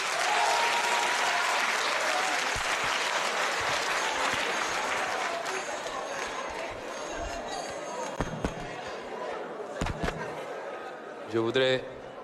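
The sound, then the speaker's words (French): Loud, sustained applause and crowd noise from an audience, with voices mixed in, runs throughout, easing slightly toward the end with a few sharper bangs near the close. “Je voudrais demander au public d'arrêter les manifestations bruyantes.”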